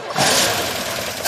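A car engine in poor shape turning over, heard as a short burst of harsh, rattling mechanical noise that stays steady and loud for just over a second.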